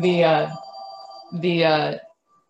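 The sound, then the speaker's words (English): A mobile phone ringing in two loud bursts of ringtone separated by a short pause, with a faint steady tone between them. “your phone is ringing, brother.”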